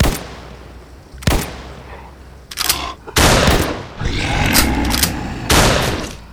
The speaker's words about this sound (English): I don't think these guns are gonna take it out.